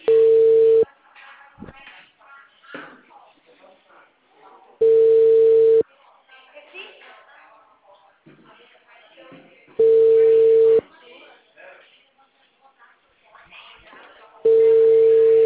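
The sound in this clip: An unanswered telephone call: four steady ringing-tone bursts, each about a second long, repeat at even intervals, with voices talking in the gaps between them.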